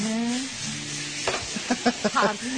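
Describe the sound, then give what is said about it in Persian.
Beef, from the firm part of a veal cut, sizzles over heat in a pan with onions, giving a constant frying hiss. A voice is heard briefly at the start, and a few short, louder stirring scrapes follow. “بعد از اینکه گوشت پختش، در واقع گوشت زودتر از پیاز خواهد پخت. حرارت کمک میکنه که پخت گوشت سریعتر انجام بشه.”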